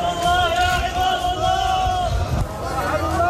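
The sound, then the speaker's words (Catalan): A crowd at a funeral in Lebanon for eleven people, three of them Hezbollah officials, killed in Israeli bombardments: a loud, sustained chanting voice rises over continuous crowd babble. “Aquest és el so del funeral d'11 persones, 3 de les quals càrrecs de Hezbollah, mortes en els bombardejos d'Israel”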